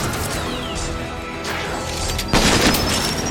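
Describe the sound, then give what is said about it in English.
Crashing gunfire blasts go off in a shooting video game as enemies are engaged. A couple of sharp, booming impacts stand out, the last and loudest near the end, over a constant gritty noise bed. “So now it's shooting at them! We've been spotted! Aha! Nice shooting!”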